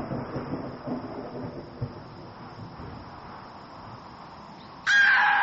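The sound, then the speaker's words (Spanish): Low, rolling rumble of distant thunder ahead of a coming storm, as a cold breeze rises behind a house; the soft rumble holds steady, then a loud crow caw suddenly breaks in at the end. “los truenos que comenzaban a escucharse en la lejanía, auguraban una tormenta inminente.”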